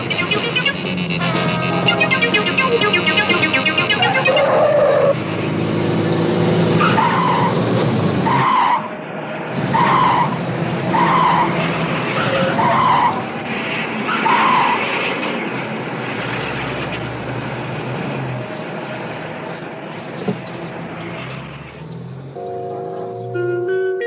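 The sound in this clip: Tires skid and squeal on an old, worn-out car pushed hard during a chase, with a series of short, sharp squeals over a loud, steady engine roar.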